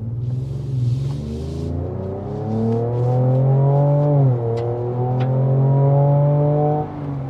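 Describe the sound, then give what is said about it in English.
A Toyota car accelerating with an augmented, aggressive exhaust note: a loud engine drone climbs steadily in pitch, dips briefly as if shifting, then climbs again before easing off at the end. “I'm still got the aggressive exhaust note. Is that augmented? Yes, both augmented for us in here, and also actual real outside. Okay, let me accelerate.”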